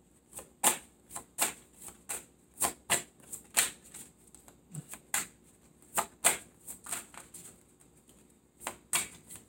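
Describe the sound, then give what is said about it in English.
Tarot cards being shuffled and drawn for a Scorpio reading: many crisp, quiet snapping clicks in an irregular, quick rhythm, each card sound short and sharp against near silence. “May I have one more card for Scorpio, please? Thank you. Taking that one.”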